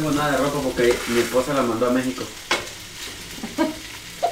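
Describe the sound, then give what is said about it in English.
Pork chops fry on a stove in a kitchen, giving a steady sizzle with a few sharp clicks of stirring, and brief talk near the start. “Pork chops and soup are on the stove for dinner.”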